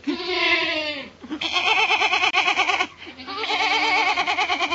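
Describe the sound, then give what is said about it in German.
A small goat at a zoo bleating in three long, quavering calls, each a nasal, rapidly trembling bleat, clear and fairly loud, with short pauses between them. “Das hat eine sehr lustige Sprache, so eine kleine Ziege.”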